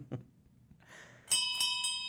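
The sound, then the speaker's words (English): A bartender rings a bell for last call in a pub. After a few soft low knocks, three quick bright strikes ring out, each leaving a clear sustained tone at moderate loudness, with no talking. “that was the bartender ringing the bell, signaling its last call for drinks.”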